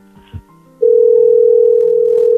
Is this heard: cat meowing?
no